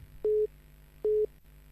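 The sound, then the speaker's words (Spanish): A telephone ringback tone heard while a call is placed: two short, steady mid-pitched beeps about 0.8 seconds apart, each lasting about a fifth of a second, with no talk. “Le estoy llamando a Carlos Roja. Está sonando.”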